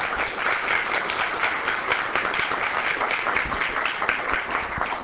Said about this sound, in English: So maybe we'll applause for them one more time.